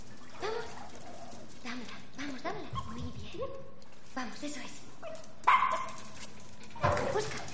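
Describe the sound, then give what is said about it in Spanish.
Small dog barking after fetching a ball thrown down a corridor, with a couple of short, sharp yaps near the end over a steady, murmuring background. “Le lanza la pelota hacia un pasillo. El perro va a por ella y regresa. Es de raza pequeña.”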